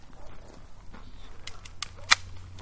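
An airsoft gun fires at a tree stump by a home campfire: one sharp, loud crack stands out near the end, after a few fainter snapping clicks against a quiet outdoor hiss.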